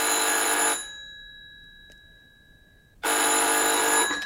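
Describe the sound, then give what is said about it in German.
A telephone bell rings outside, two loud bursts of ringing separated by about two seconds of near silence, with no voices. “Gleich klingelt draußen das Telefon.”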